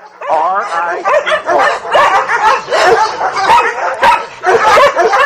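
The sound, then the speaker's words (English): Excited dogs bark, yip and whimper without pause, loud and overlapping in a dense, busy chorus. “These dogs love me too much. Maybe I should feed them.”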